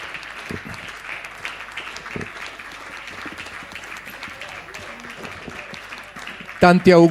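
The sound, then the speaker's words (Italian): Applause from an audience honoring their honorary national president on his birthday: sustained, even clapping for several seconds. A voice starts speaking right at the end. “un applauso al nostro Presidente Nazionale Onorario, che salutiamo, di cui oggi è il compleanno”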